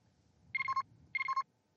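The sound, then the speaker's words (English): A comms device rings aboard a ship. It sounds two short, faint, warbling ring bursts separated by a brief pause. “I mean, it's ringing both of your comms. It interrupted the conversation”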